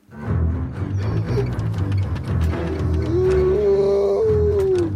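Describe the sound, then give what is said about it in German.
A wolf howls through the night: one drawn-out, slightly rising howl emerges late over a dense, low, rumbling backdrop with a faint clicking texture. “Heulten Wölfe durch die Nacht.”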